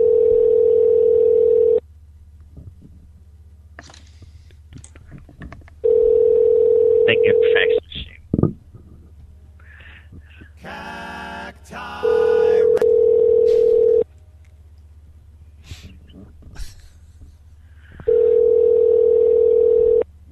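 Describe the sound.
An unanswered telephone call's ringback tone sounds as four long, steady, mid-pitched tones spaced evenly apart, with voices, rustling and handling noise in the gaps between them.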